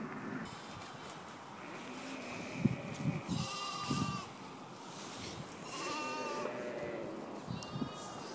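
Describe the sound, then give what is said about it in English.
Newborn spring lambs bleat outdoors on farmland near Balrothery, County Dublin. Several thin, wavering bleats rise in a few scattered bursts over a steady rush of wind. “but that is the sound of lambs. The first lambs of 2011. It's such a nice sound, isn't it?”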